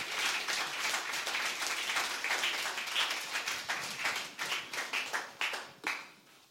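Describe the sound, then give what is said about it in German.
An audience applauds to welcome a guest speaker, with fairly soft, dense clapping that holds steady for several seconds and then thins into scattered individual claps before fading out. “So, lass uns ihm ganz herzlichen Applaus geben”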